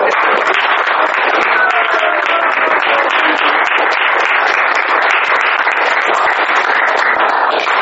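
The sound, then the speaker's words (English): Sustained roaring applause from a gathered audience, a dense and loud wash of clapping that holds steady from start to finish without a break. “So I want to ask all of you to join your hands and a roaring applause for”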